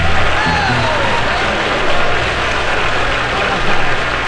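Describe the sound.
Audience applause at the Grand Ole Opry welcoming the country duo Lonzo and Oscar: a dense, steady wash of clapping that holds at an even level for the whole stretch, with slight swells near the end.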